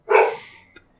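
A single dog bark: one short, loud, rough burst that quickly tails off.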